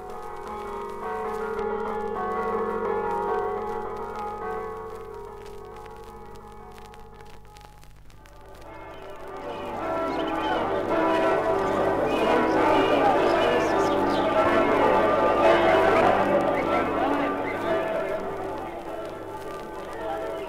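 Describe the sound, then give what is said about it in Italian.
Church bells ring at dawn on a festival Sunday morning during a traditional village feast in Sacile, Italy. The ringing is continuous and dense, swelling louder and fuller in the second half. “Nel biancore antelucano, le voci delle campane di San Nicolò salutano il giorno festivo”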